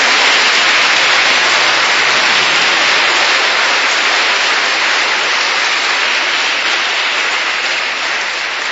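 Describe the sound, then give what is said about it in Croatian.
Audience applause at a concert for the arranger of a string quartet piece, a steady, dense wash of clapping that stays loud and tapers off slightly at the end. “tako malo jedan pljesak za njega, pošto ne piše u programu.”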